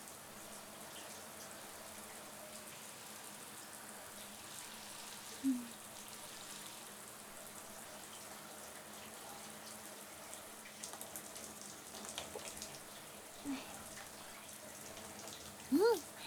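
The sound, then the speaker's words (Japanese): Hot water fills a washtub with a faint, steady hiss of running water, broken by a few brief squeaky sounds partway through and at the end. “ほんならたらいにお湯をためていくけ。”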